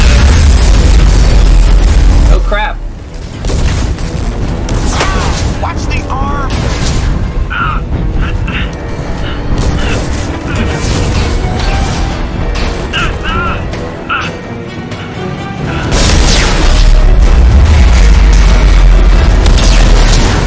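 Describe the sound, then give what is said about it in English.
Video game energy beam blast and explosions during an attack by enemy craft: heavy, loud booms open and close the stretch, with dense crashing and bursting sounds in between, while a voice talks excitedly over the action. “They're coming around for another attack! They shoot a beam!”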